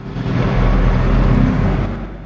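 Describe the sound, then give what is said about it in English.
Massive container trucks roll past a car park, a steady, heavy low engine rumble that holds at an even loudness throughout and eases slightly at the end. “Two massive container trucks roll by in the near distance.”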